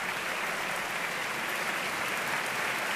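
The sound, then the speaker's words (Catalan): Dense, steady applause from an opera audience greeting the orchestra as the musicians rise in the pit, a continuous wash of clapping that holds at an even level throughout with no voices. “fa aixecar tots els músics de l'orquestra que reben aquest aplaudiment”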